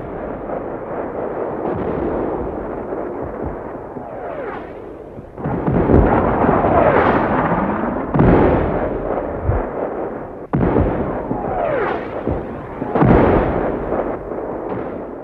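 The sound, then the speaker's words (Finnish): Archival recording of an artillery barrage on the Karelian Isthmus: deep, overlapping booms and rolling rumble run continuously, with several louder blasts standing out from the dull, low-pitched roar. “Kuunnellaan ensin, minkälainen on tykistökeskitys. Tämä arkistonauhoite on Karjalan kannakselta”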